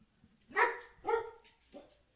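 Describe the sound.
A female dog barks three times, quiet and alone; the first two barks are full and similar, the third shorter and softer.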